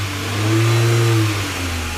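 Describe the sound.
A Citroën Traction Avant car engine starts and revs, a steady mid-pitched hum that swells to a peak and eases back, heard alone for about two seconds.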